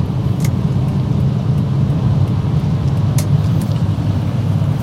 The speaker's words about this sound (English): I'm going to pick up some speed here.